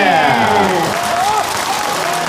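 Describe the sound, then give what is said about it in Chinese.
Studio audience applause for two guests at a televised cultural event: a steady, dense wash of clapping, with a voice briefly audible over it. “那我们就感谢这两位才子来到我们皇后和大会的华丽聚宝地，掌声送给他们，谢谢。”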